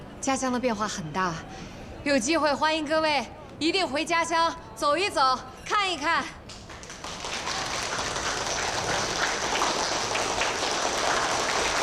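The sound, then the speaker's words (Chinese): Audience applause welcoming a guest at a gathering of people from Sanjiang living abroad, a dense, even wash of clapping that fills the last several seconds after a voice speaks to introduce her. “这位是咱们三江乡的陈女士，大家掌声欢迎。”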